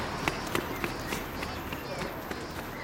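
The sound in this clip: Running footsteps pound in a quick, steady rhythm, with many light thuds in under three seconds over a hissy background.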